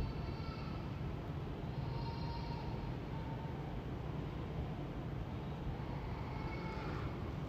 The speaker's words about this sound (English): This is the sound of Oslo Airport.